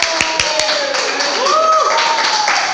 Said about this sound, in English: Everybody, put your hands together for Leroy Auberg.